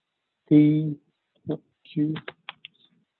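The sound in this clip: Keystrokes on a computer keyboard, typed while entering data into charting software. A voice talks briefly, then a few sharp, quick key clicks follow in quiet.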